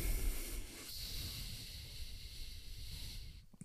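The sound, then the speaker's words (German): A long, deep exhale through the left nostril with the right nostril held closed, part of a breathing exercise. It is a soft, steady, airy hiss that lasts about three and a half seconds and fades out at the end. “Füllst deinen Brust- und Bauchraum, schließt dein rechtes Nasenloch und atmest links aus, ganz tief.”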